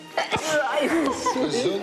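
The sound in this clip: A short, sharp sneeze from a woman allergic to flowers, followed at once by voiced sounds as people talk.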